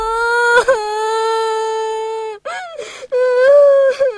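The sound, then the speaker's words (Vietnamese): A small child crying after being teased by an older brother: a loud, high sustained wail lasting about two seconds, breaking into choppy, gasping sobs and renewed wavering wails. “sao con lại trêu em khóc như thế?”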